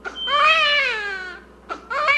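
A newborn baby girl in Africa cries in a long, strained wail whose pitch slowly falls, then breaks briefly before another cry starts.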